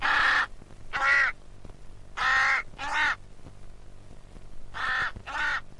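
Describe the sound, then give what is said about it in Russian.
A raven calls in a snowy forest in late winter, giving six loud, harsh, rasping caws grouped in three pairs with pauses between them. “Самка ворона первую из всех птиц снесла яйцо.”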